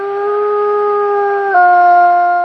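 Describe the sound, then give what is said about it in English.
A wolf howls in the wild in Voyageurs National Park, caught on a trail camera: one loud, sustained, steady tonal note that drops slightly in pitch partway through and then holds, heard alone. “a recent howl caught on camera was described as being as wild as they come. It's what wolves are most famous for”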